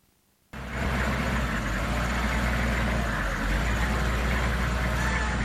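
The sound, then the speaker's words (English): Steady engine and road noise from a Humvee driving around the Kentucky Capitol building, a loud constant drone that cuts in abruptly and holds unchanged to the end. “Military buildup in the great state of Kentucky. Here's a Humvee driving around the Capitol building,”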